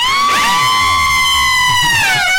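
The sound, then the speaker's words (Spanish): People scream in one long, loud, high-pitched shriek held through the whole stretch and dipping slightly at the end, with other wavering voices overlapping it near the start. “Sientes todo con tanta intensidad que tu verdadera táctica de supervivencia es dejar sordo al asesino. ¡Ah! Gritos, gritos,”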